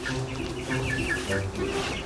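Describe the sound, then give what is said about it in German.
Larger hens clucking, short soft calls scattered through a steady wash of background noise. “Denn auch die etwas größeren Hühner erwarten Pflegerzuwendung.”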